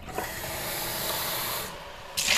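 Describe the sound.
Old coffee is poured away in a kitchen, making a steady rushing, hissing stream for about a second and a half. The stream then stops, and a short separate burst of noise follows at the end.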